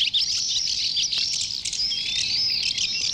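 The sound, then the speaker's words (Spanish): Common house martins twitter, the birds that once nested on the San Martín bridge in Toledo. Their high, busy chirps run continuously and fairly loud, with no voices. “Y ahora escucharemos el avión común, este ave que solía hacer los nidos en el puente de San Martín”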